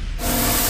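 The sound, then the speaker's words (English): Car detailing spray gives a steady hiss that starts abruptly after a brief quiet moment, then holds loud and even to the end with no voices. “Hear that? That's the sound of your car getting the top-end car care treatment.”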